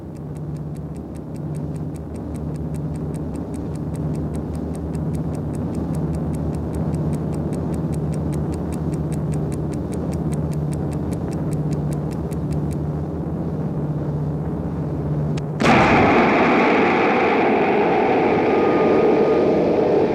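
A small travel alarm clock ticking steadily and quickly inside a suitcase aboard an airliner in flight, its many crisp ticks sitting over a constant low engine drone until the ticking stops partway through.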